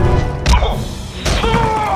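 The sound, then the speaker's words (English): A helmet is knocked off a colonial soldier and clatters away in a sci-fi audio drama fight. A heavy thud is followed by a second crash with bright, ringing metallic tones that linger briefly. “The colonial's helmet clatters away, revealing an insectoid head.”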